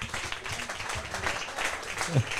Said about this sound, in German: Jörg Cordus, kleiner Applaus. Hat er nicht verdient.